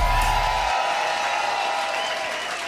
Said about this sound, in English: All right, buddy, make some noise.